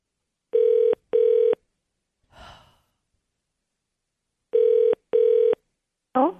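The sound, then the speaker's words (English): A telephone call rings out with two double ring tones, a soft breath, then another double ring. The rings are steady, even-pitched and fairly loud, and a voice begins right at the end. “Okay, I'll go first. Here, let me dial.”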